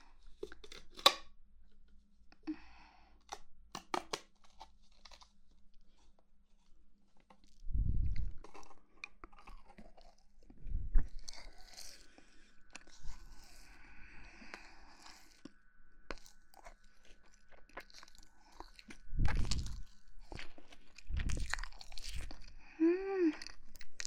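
Someone chews and eats marshmallows, making soft, intermittent mouth sounds. Scattered low thumps and smacks are spaced out between quiet gaps.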